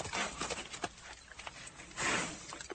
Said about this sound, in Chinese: 吓得他立刻骑马回去王宫。